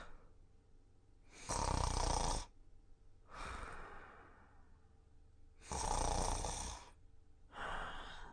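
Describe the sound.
A performer imitates snoring while settling down to sleep in a comedic storytelling performance, with a few drawn-out, breathy snores alternating between loud rasping bursts and softer breaths.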